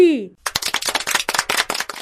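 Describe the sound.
Children applaud after a counting lesson. A brief voice comes first, then a quick run of many sharp, loud claps follows in a fast, uneven rhythm.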